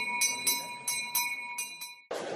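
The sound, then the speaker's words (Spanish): A bell rung by children to start a Corpus Christi procession on a sunny, hot feast day: about six bright, ringing strikes at an uneven pace, each leaving a sustained metallic hum, then a sudden burst of broad noise at the end. “los niños carráncanos hacen sonar la campana para que la procesión del Corpus arranque en este soleado y caluroso día de San Fernando.”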